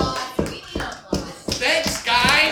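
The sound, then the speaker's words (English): Audience applause from a live evening crowd, starting as a few sharp, separate claps and swelling into a fuller, steady wash of clapping toward the end. “I think we should give them applause. Let's do that.”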